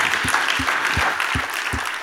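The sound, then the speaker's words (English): An audience claps along in praise during a church worship service, with firm hand claps landing in a steady rhythmic beat, about five clear strikes, under a constant wash of crowd noise. “Come on, let's clap our hands and give Jesus praise.”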